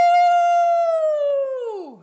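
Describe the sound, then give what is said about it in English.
A dog howls along with a person: one long, loud, tonal howl that holds a steady pitch for most of its length, then slides downward and fades at the end. “I think my dog just started howling with you a lot.”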